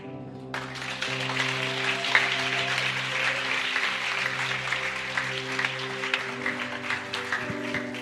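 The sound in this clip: A church audience applauds a speaker, beginning abruptly after a brief pause and then clapping steadily and densely for several seconds at a moderate level.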